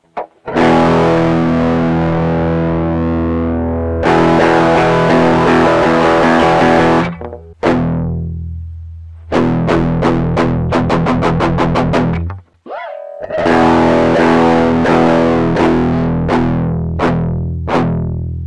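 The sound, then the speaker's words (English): A distorted electric guitar plays a low E power chord. It first rings open and sustained, then comes as shorter palm-muted chugs, including a quick run of clipped strikes, before ringing longer again. “I'll play an example of a low E power chord open, palm muted, and then slowly bringing my hand in place.”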